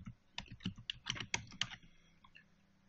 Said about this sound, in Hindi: so point text अगर मैं type करता हूँ,